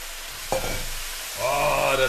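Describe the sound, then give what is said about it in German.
Wet spinach leaves frying in hot olive oil in a pan: a short clatter, then a loud, broad hissing sizzle that swells and holds steady. “So, Olivenöl ist heiß. Rein mit unserem Spinat.”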